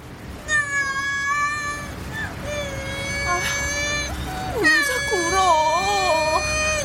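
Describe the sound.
Infant crying sharply while rubbing its eyes, heard as about three long, high, wavering wails with the pitch wobbling strongly in the last one, fairly loud throughout.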